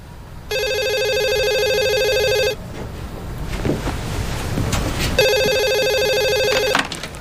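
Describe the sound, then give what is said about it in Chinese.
A telephone rings in two long electronic bursts. Each is a bright, buzzing tone lasting about two seconds, with a gap of faint rustling and handling noise between them. “是明忠的电话”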